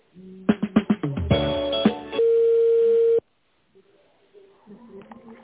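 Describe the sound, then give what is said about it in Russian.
Telephone line tones while a call is being transferred: a quick run of short electronic beeps, then a steady held tone for about a second, after which the line drops to quiet with faint sounds. “Оставайтесь, пожалуйста, на линии, переключаю вас на Белева Дмитрия Ивановича.”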